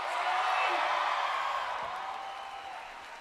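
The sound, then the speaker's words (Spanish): Applause and crowd noise at a live nighttime show: a dense, steady wash of clapping that starts loud and slowly fades over a few seconds. “Fuerte el aplauso.”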